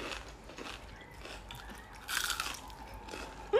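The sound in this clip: Biting into a crispy gluten-free samosa gives a brief, crackly crunch amid faint chewing sounds. The crunch rises above quiet background noise.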